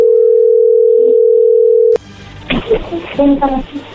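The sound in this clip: A telephone dial tone is heard as a call is placed: a steady, unbroken mid-pitched tone for about two seconds that then cuts off, followed by a voice talking.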